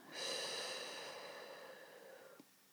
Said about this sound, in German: Und nochmal durch die Nase ein und durch den Mund wieder aus.